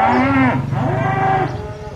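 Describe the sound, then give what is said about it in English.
Dairy cows mooing at milking time on a farm on Dartmoor, United Kingdom: loud, low, drawn-out bovine calls with a rich nasal tone, one long moo running straight into the next with no other sounds. “It's milking time at Wingstone Farm in Manitoun, United Kingdom, where these ladies were recorded as part of the Sounding Dartmoor community project to sonically document this region of the British Isles.”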